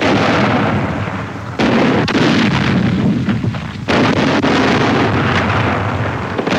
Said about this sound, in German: Feindliche Panzer, Flakartillerie schlägt sie zurück.